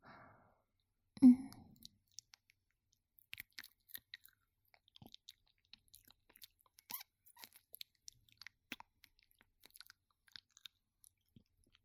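Someone licking and chewing food makes wet mouth sounds: an early soft breathy burst, then many small, sparse clicks and smacks. Quiet throughout, with no talk.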